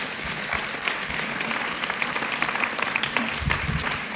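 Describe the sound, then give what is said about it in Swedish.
Audience applause for a speaker at a church gathering. The clapping is dense and steady and fills the whole moment at an even level, with no voices rising above it. “Ska vi klappa för henne?”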